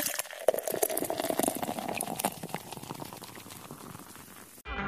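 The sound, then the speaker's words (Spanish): Beer pours with a bright, fizzing, splashing rush that starts abruptly and then grows gradually quieter over a few seconds before breaking off. “El sonido de la cerveza.”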